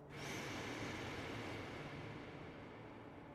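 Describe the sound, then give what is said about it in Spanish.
A slow, deep breath drawn in through the nose: a quiet, steady airy hiss that starts abruptly and holds for about three seconds. “Para empezar, vamos a tomar tres respiraciones por la nariz, inflando la panza. 1, inhala.”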